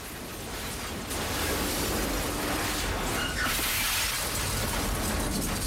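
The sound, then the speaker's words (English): A house breaking apart in powerful explosions with glass shattering, a loud, sustained roar of crashing debris and bursting glass that swells after the first second and continues without pause. “All around them, the house is breaking up amidst almighty explosions, which sends shards of glass flying through the air.”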